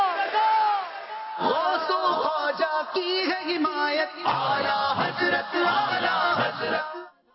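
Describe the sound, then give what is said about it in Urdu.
A crowd at a religious gathering shouts the chanted response to a slogan. Many voices rise in loud, rhythmic, repeated bursts across several seconds, then cut off at the end. “جواب دیجئے نعرے کا فیضان رضا رضا”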